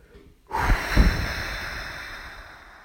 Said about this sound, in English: Breathe out all the air you have in your lungs, hard.